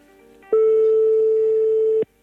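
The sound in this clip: A ringing tone on an outgoing telephone call: one steady, low-pitched tone that holds at an even level for about a second and a half, then cuts off cleanly.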